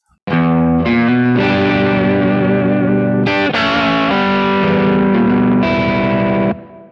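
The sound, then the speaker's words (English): Distorted electric guitar through a Kemper profiler emulating a Marshall amp and 4x12 cab in a big recording room, with natural reverb at 1.3-second decay; several thick, sustained chords and bent notes ring out loud, ending in a brief reverb tail. “Now you hear a bigger tone, bigger Marshall amp. So it sounds a little bit, Marshall 4x12 cab in a big recording room.”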